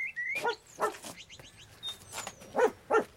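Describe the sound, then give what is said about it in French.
A lonely dog whimpers, giving thin, high whines and several short, sharp yelping cries in an irregular sequence, with quiet gaps between them. “Oh, c'est le chien de Frankie Miller. Oh, qu'est-ce que tu fais là, toi ?”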